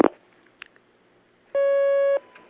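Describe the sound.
A telephone line tone sounds as a phone call connects: one steady, clear electronic tone lasting about half a second after a short quiet gap.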